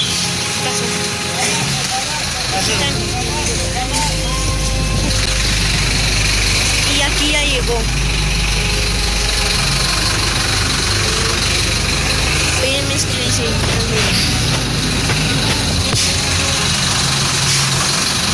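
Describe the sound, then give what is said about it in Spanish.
A truck engine idles with a steady, low rumble that holds for the whole stretch, with a busy mix of other background noise layered over it. “Ese es nuestro camión.”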